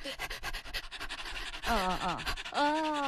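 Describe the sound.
A person imitates a dog panting on a hot day: many rapid, breathy huffs in a quick, steady rhythm of fast in-and-out breathing, followed by brief voiced sounds.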